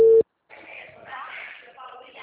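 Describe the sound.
One short busy-signal tone sounds after a dropped phone call. Then comes a brief silence, followed by a faint voice talking over the line.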